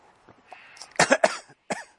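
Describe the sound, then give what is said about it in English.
Coughing: after a few soft throat sounds, a person gives a quick burst of three coughs and then a single cough after a short pause. The coughs are moderately loud, with no speech. “Sorry for coughing.”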